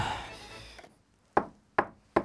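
Three firm knocks on a door, evenly spaced and sharp, each ringing briefly before silence.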